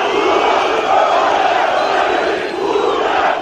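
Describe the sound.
Tens of thousands of supporters chanting at a Turkish nationalist rally, a loud, dense roar of massed voices that holds steady throughout.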